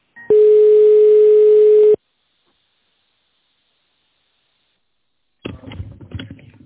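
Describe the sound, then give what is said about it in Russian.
A telephone tone during a call transfer: a single steady, buzzing tone lasting about a second and a half, followed by silence and then a stretch of rough, muffled noise. “Так, сейчас я вас переключу все-таки на него.”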